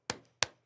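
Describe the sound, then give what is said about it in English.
Two sharp hand claps of flesh on flesh are given by a preacher during a sermon. The crisp claps are about a third of a second apart, and each decays quickly into silence. “You hear that? That's the sound of flesh on flesh. The devil cannot stand it when he hears people clap.”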